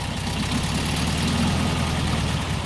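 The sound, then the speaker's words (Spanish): A 1975 Volkswagen Beetle's rear-mounted engine idles with a steady, low, throbbing rumble that holds an even level throughout, with no talk over it. “Así suena un escarabajo del año 1975.”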